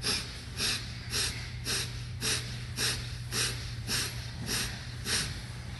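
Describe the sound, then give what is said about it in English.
Forceful, rhythmic exhalations from a person bouncing in a semi-squat during an exercise routine. Sharp breath bursts come about every half second in an even, repeated pattern over a steady low hum. “Come into a semi-squatting position. From here, bounce 11 times with a powerful breath.”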